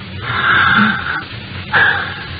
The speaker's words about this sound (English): Now, uh, breathe deeply, please. Good. Once again.